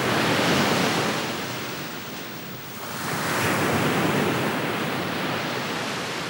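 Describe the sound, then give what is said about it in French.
Sea waves crash on the shore in a loud, continuous roaring surf. The wash of one breaker ebbs slightly midway before the next surge swells back up, with no voices. “Une sorte de rythme faisait de ce bruit une mélodie terrible. Le rivage vibrant sous le coup de vagues répondait à la haute mer retentissante.”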